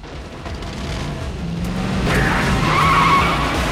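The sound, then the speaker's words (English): A convertible sports car roars off with skidding tire noise, a loud sustained rush of engine and tire sound with faint tonal whines, swelling louder toward the end. “As the convertible roars off”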